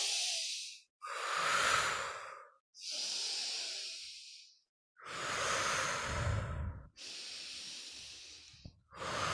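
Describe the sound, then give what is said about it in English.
Slow, deliberate breathwork: breaths drawn in through the nose and pushed out through the mouth, heard as several long, airy rushes of breath separated by short pauses. “we have one called the halo active, which is in through the nose, out through the mouth.”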